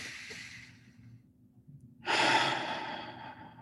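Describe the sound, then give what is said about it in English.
Deep breaths in and out during a guided mindfulness breathing exercise, taken through the nose or mouth: a soft airy breath fades away, and after a quiet pause a louder, fuller breath follows, with no talking. “So let's start off by just taking a couple deep breaths. Maybe it could be in through the nose, out through the mouth, or in through the nose, out through the nose.”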